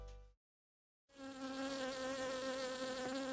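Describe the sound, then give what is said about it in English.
Honeybees buzzing as they forage in warm weather: a brief buzz cuts off into silence, then a steady, continuous drone with a rich, harmonic hum resumes and carries on to the end. “Industrious honeybees and other pollinators are enjoying the warmer weather. They are hard at work, ensuring not only food for themselves, but a healthy ecosystem for us.”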